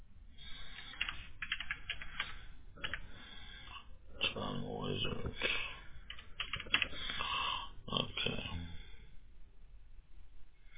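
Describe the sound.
Fingers type on a computer keyboard while a web address is entered, producing bursts of quick, irregular clicks as people talk over them.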